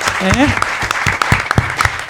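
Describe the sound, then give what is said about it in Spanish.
Applause at a festival gathering, heard as scattered, sharp claps with uneven gaps between them. A voice comes through briefly near the start. “O sea que un aplauso para Emilcar, por favor, que se copó.”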